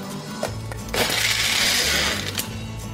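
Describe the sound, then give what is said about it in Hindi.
A blender whirs through a mango milkshake packed with lots of ice, a loud continuous motor drone with gritty crunching and rattling of ice chunks that swells briefly in the middle. “Mango milk shake तो एकदम chilled अच्छा लगता है lots of ice खूब सारा बर्फ और इसी में मिक्स कर लीजिए ताकि वो अच्छी तरह से ब्लेंड हो जाए”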